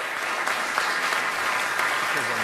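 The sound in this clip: An outdoor Walk of Fame ceremony audience breaks into steady, dense applause, with many hands clapping at an even level throughout.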